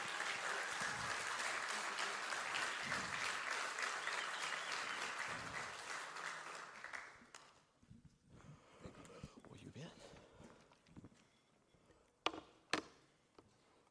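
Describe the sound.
Audience applause welcoming a guest speaker to the platform, a dense, loud wash of clapping for about seven seconds that then dies away into scattered claps and taps.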